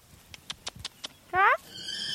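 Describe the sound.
A horse whinnies at the paddock of an animal-assisted therapy center with a riding hall and stable. A few soft, quiet clicks come first, then one short, loud, bright neigh rises above them.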